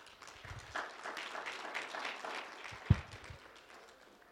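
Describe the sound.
Applause from a church audience welcoming newcomers: steady clapping that holds fairly faint throughout, with one louder thump near the end.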